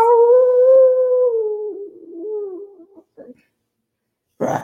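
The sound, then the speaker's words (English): Howling from a Halloween wolf decoration in a neighbor's front yard: one long, tonal, mournful howl that slowly sinks in pitch and trails off, followed by a brief faint rustle and a short noisy burst at the end. “And my neighbor has a Halloween wolf on in their front yard. So every once in a while you'll hear,”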